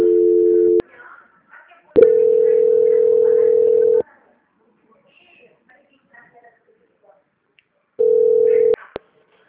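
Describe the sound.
Telephone call transfer tones on a phone line: three steady, flat electronic tones, short, then long, then short, separated by near silence with faint scattered noises.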